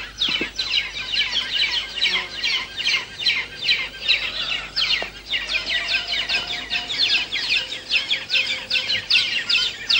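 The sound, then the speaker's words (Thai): Brown hornbills calling noisily while feeding at the nest, helpers queuing to feed in turn, give loud, rapid, high chattering calls repeated in a dense, steady rhythm that runs throughout. “นกเงือกสีน้ำตาลจะผลัดกันเข้าป้อนทีละตัวด้วยการต่อคิวรอหน้ารังมีบางครั้งที่ตัวหนึ่งยังป้อนไม่เสร็จแต่มีตัวอื่นบินเข้ามาเตรียมจะป้อนต่อและส่งเสียงร้องเอะอะอยู่”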